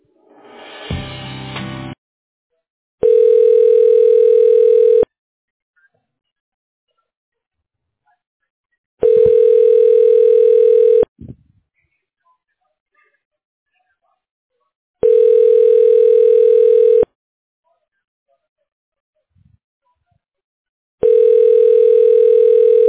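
Telephone ringback tone plays while a call is transferred to voicemail: four steady, evenly spaced pulses, each about two seconds long with longer silences between, after a short burst of noise at the start.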